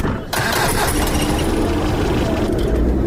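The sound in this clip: A vehicle engine starts as the driver sets off with a full load of passengers. A brief quiet moment gives way to a steady, rough rumbling drone that continues to the end.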